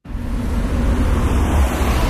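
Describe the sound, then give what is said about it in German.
Road traffic at a busy city intersection with motorway access in St. Gallen, where nearly 25,000 vehicles pass each day. The wash of passing vehicles is a steady, low-heavy roar that stays even throughout, with no voices. “Wir sind an der Kreuzung in der St. Galler Kreuzbleiche. Da fahren die Leute auf der Autobahn Richtung Gossau oder Rorschach oder Richtung Innenstadt oder aus der Stadt raus Richtung Appenzellerland. Jeden Tag fahren hier fast 25'000 Fahrzeuge”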